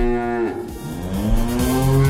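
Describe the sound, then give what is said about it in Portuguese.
A loud cow moo, a deep, drawn-out harmonic bellow that shifts in pitch partway through and carries on to the end, with no talk over it. “fica registrado aqui o nosso mugido. Muge pra ele.”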